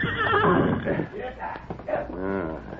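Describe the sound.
A horse neighs, a ringing whinny that follows a man's voice in a dramatized scene of a rider steering his horse off a trail behind a boulder; speech also runs through the opening.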